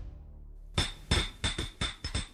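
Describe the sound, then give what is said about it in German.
Hammer and chisel striking artificial stone: several sharp, ringing metallic blows land at an uneven pace after a quiet start, each strike bright and fairly faint. “Doch Versuche mit Hammer und Meißel scheitern.”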